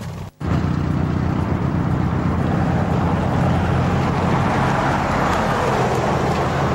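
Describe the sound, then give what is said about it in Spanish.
Vehicles driving past a marked pothole on a road make a continuous loud roar of engines and tires, broken only by a very short gap near the start. “Si ustedes ven, este pozo está señalizado, pero pasan los vehículos.”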